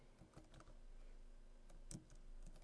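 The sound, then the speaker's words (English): Keystrokes on a computer keyboard as the ethtool command is typed in a Linux terminal: a few soft, irregular clicks, faint and without voices. “So if I type ETH tool ETH 0, let's ETH 2,”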